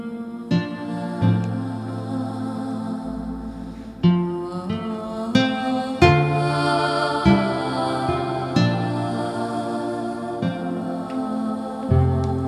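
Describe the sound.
Instrumental background music with sustained melodic tones over shifting chords and soft percussive accents, steady and moderate in level.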